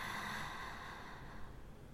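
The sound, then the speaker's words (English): A forceful exhale through the mouth during a breathing exercise: a soft, steady breathy rush that lasts about two seconds and tapers slightly at the end. “5, 4, 3, 2, 1, exhale. Huff it out.”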